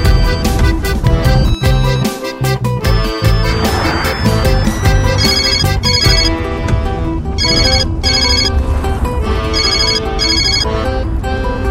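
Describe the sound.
A mobile phone rings with a loud, melodic electronic ringtone whose repeating tonal pattern continues without a break for about twelve seconds.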